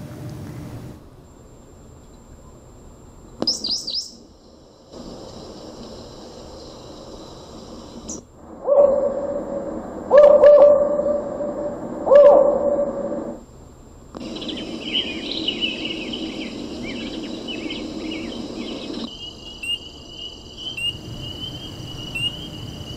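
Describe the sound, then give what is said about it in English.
Bird and insect sounds from a national parks soundboard play in shifting segments: chirping insect-like tones, a few repeated low hoot-like calls in the middle, then a steady high-pitched trill toward the end. No voices. “someone made a soundboard. Of the national parks. Of national parks with all the bird sounds and stuff. So I'm going to just play this.”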